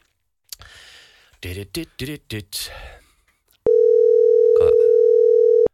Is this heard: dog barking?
no